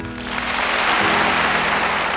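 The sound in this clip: Applause from a concert audience at Thomas Road Baptist Church welcoming a performer before a live concert with a full orchestra. Dense clapping swells in quickly and holds steady and loud throughout.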